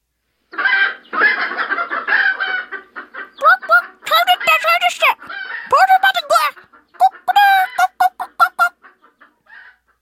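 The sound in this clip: Chickens clucking and squawking in loud, irregular bursts, many sharp calls crowding together, some rising into shrill cackles.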